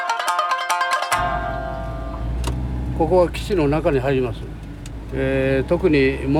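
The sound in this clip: A car driving slowly along a country road at about 30 km/h gives a steady low engine and road rumble, with people talking over it.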